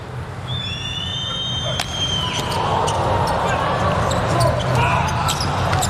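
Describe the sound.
A volleyball serve by Anderson in the first set of a match against Poland: one sharp smack of the ball cuts through steady crowd noise and whistling tones, followed by a few lighter taps.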